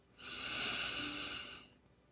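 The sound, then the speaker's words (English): A single deep inhalation through the nose during a guided breathing exercise: a soft, airy rush that swells in, holds for about a second and a half, then eases away. It is quiet and heard on its own. “Let's take a deep breath together, breathing in through your nose,”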